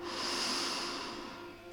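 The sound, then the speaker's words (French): A single long, deep breath during a guided breathing exercise, heard as a steady, airy hiss that holds evenly and then fades slightly toward the end, with no talk. “Prenons une profonde respiration.”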